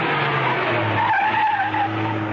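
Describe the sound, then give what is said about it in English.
Tyres squeal as a car skids to a stop, a sustained high screech over a low, rough engine rumble. “Outside the building, she swung the car to a stop.”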